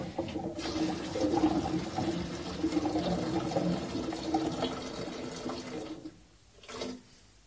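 Water running into a screw-top metal bottle of about three litres: a steady rushing pour that holds for about six seconds, then cuts off, with one short splash after.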